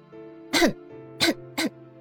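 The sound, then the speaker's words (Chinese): Three short, throaty coughs that sound like throat clearing, the first the loudest and the last two close together, over a soft sustained tone. “可是没有花儿过来，于是他咳了一下”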